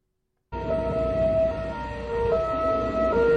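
A siren wails in a loud, sustained tone that holds steady and then shifts pitch twice, over a constant rushing noise, with no talking.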